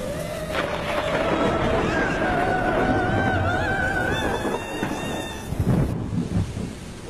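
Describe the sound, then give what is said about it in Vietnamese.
Heavy rain pours in a dense, unbroken hiss with low thunder rumbling beneath it, while a wavering, wail-like tone rises over the storm for several seconds before fading. “Bên ngoài kia, tiếng mưa vẫn cứ vang lên rào rào rào rào.”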